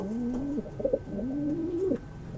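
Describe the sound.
Pigeons coo in low, soft, rolling phrases, two drawn-out calls with a short burst of quicker notes between them, over a quiet steady background with no talk.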